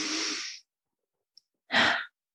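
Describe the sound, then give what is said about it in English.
One deep breath is taken in through the nose as a long, airy inhale, then after a quiet pause it is released out through the mouth in a shorter, fuller exhale, with no talking. “We're going to take 3 deep breaths right now, 1 in through your nose and out through your mouth.”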